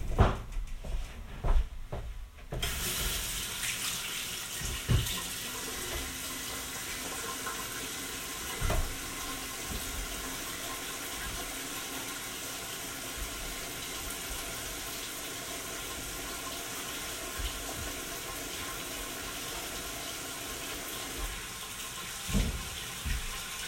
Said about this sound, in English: Next up, probably the most important step of all time, wash your hands, okay? Wash them.